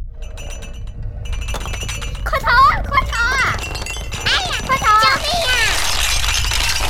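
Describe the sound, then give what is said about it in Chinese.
Glass and other objects rattle and clink as an earthquake shakes them, a constant bright jingling. Partway through, high, panicked voices begin crying out over it. “对，就是只听到地震让很多东西都在摇晃的声音，当然还有人们逃难时候的呼叫声。”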